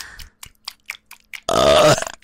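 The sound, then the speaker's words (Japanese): A single loud, low, drawn-out burp follows a series of faint short clicks and mouth sounds, ending with a brief rough tail. “お前の大好きなゲップだよ、ほら。”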